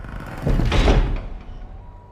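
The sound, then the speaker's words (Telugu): A door is shut firmly in a house, giving one dull, heavy thud that swells briefly and then fades into a low rumble. “Murali ఆ రూపాన్ని చూసి వేగంగా ఇంటికి వెళ్ళి తలుపు గట్టిగా వేసుకుని పడుకున్నాడు.”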